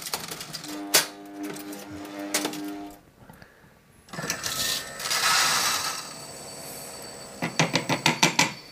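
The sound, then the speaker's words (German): Cups clink and ring on top of an espresso machine as its pump runs. Bright metallic tones sound at the start, then a stretch of pump noise and hiss, then a quick series of sharp rattling clinks. “Also die Pumpe klingt anders, das stimmt. Das sind die Tassen? Das Klingeln sind die Tassen,”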